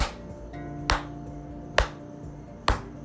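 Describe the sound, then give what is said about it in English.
Hands clapping out a quarter-note rhythm in a guitar strumming lesson: three sharp, evenly spaced claps about a second apart, each standing alone against a quiet background. “So, for example, I'm going to clap it out. Quarter notes sound like this.”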